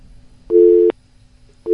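A telephone busy signal on a call-in line: a loud, steady electronic tone that cuts on and off, with one full beep and the start of the next after a short silence.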